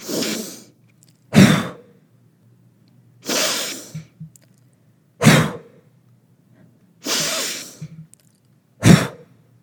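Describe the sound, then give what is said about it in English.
Breathing exercise for anxiety: three cycles of a long, airy inhale through the nose, each followed by a quick, forceful and loud exhale, in a steady rhythm with silent pauses between. “I'm going to actually take a long inhale through my nose, but I'm going to exhale quick and powerful.”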